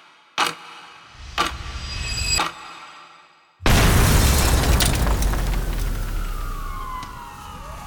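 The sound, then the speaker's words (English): A blast from twenty kilograms of plastic explosive tears through the eastern wall of the Radio Free Europe building and shatters windows. A few sharp thuds come first, then a sudden loud roar that fades into a long rumbling wash. “In an instant, the blast reduces the eastern wall of the Radio Free Europe building to rubble. 20 kilograms of plastic explosive unleash a shockwave that shatters windows”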